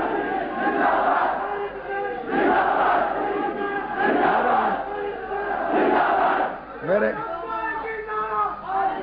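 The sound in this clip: A crowd at a Shia religious gathering chants a religious slogan in unison. The chant comes in loud, repeated surges of many voices, with brief dips between them, and a more broken burst of voices near the end.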